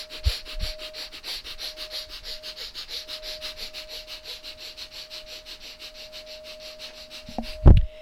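Rapid, forceful nasal breathing from a breath-of-fire exercise: many quick, even sniff-like pulses in a steady driving rhythm, with a faint constant tone underneath and a few dull bumps at the start and end.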